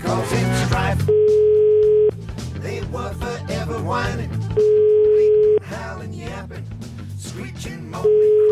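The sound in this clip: Ringback tone of an outgoing telephone call: three steady, mid-pitched one-second beeps at regular intervals, the last cut off at the end, with voices sounding between and beneath them.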